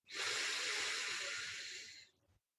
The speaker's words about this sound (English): Let's do that two more times. Deep breath in